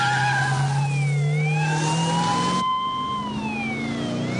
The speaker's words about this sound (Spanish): ¡pisa fondo! ¿Qué dices? ¿Este es un coche familiar?